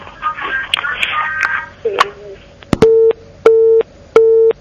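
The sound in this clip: A telephone busy tone after a call-in line is disconnected, three even, flat mid-pitched beeps at a steady rhythm, following a stretch of handset rustling and a brief voice.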